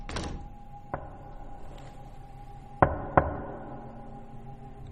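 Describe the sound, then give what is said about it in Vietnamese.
Knocking on a door: one sharp rap, then a pair of louder knocks in quick succession a couple of seconds later. Each is a short, crisp hit over a low steady hum, with no talk. “tự nhiên có tiếng gõ cửa.”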